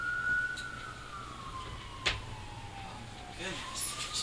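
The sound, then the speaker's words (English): Emergency vehicle siren wailing as a steady tone that slowly falls and then rises again, held under a constant background hiss with a brief sharp click partway through. “We always have the sirens.”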